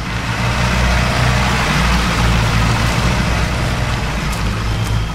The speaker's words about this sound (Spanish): El coche sale del patio.